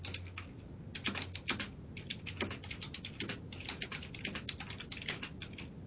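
Typing on a computer keyboard: a steady run of many quick, crisp key clicks with uneven rhythm, moderately loud and continuing for the whole stretch with no voices.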